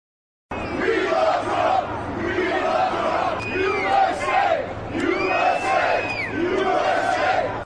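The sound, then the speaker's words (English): Construction workers cheer and shout to give a former president a hero's welcome. Loud, overlapping voices rise in rhythmic, chant-like bursts through the whole clip. “But before it all started, the former president getting a hero's welcome from construction workers.”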